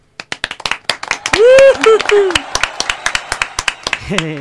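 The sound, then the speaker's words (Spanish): Rhythmic clapping greeting a guest introduced on a Spanish studio radio show: a steady run of many sharp, separate claps, with a voice calling out over them midway and again briefly at the end. “¡Un aplauso!”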